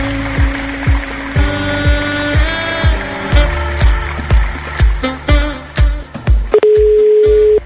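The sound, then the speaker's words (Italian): A telephone being dialed: many loud mechanical clicks come in quick bursts that grow closer together, then a steady, even tone sounds at the end. “Dobbiamo chiamare Riccardo.”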